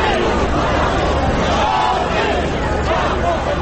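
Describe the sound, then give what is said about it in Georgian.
A dense crowd of voices fills a Paris rally held after the terror attacks, with loud, continuous babble and some shouted tones that hold steady throughout without a break. “შარლი, თავისუფლება გაუმარჯოს საფრანგეთს. ეს შეძახილები ისმოდა დღეს პარიზში”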